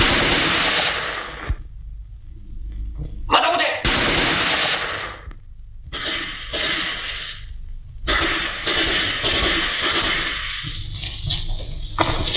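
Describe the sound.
Rapid bursts of automatic gunfire, like a machine gun firing, in a wartime guerrilla drama. Loud, dense rattling volleys are broken by short silent gaps and return several times.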